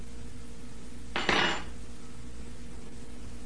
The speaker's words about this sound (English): Feed Sandy with a spoon too, honey. She's just stirring it in the cup of the spoon.